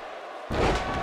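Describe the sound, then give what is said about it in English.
A wrestler is slammed to the mat with a powerbomb, landing as one deep, sudden thud over steady crowd noise, which swells louder right after the impact. “Powerbomb slam into a stun gun. That was brutal.”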